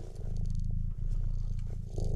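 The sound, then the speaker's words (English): Continuous low, rumbling purr from a cat being scratched behind the ear, a steady pulsing drone with a couple of brief dips where the cat draws breath, heard alone without talk. “It's the purr without the dander.”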